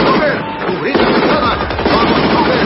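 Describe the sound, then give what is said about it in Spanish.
German MG machine guns fire in rapid, continuous bursts. The crackle is dense and loud and fills the whole stretch without a pause. “Los alemanes disparan las MG.”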